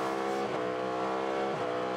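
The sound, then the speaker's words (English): A Cadillac race car's big engine purrs during a sports car endurance race at Daytona, a loud, steady, deep drone of layered tones with brief dips in pitch, heard without talk. “the big engine of the Cadillac then, purring away”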